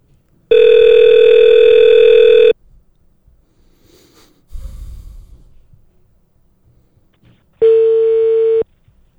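Telephone dial tone while calling back on a bad connection in a region with poor phone service: two long, steady buzzing tones, the second shorter, separated by a quiet gap with a soft low rustle.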